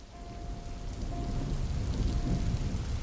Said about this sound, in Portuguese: Uma chuva forte caía no asfalto.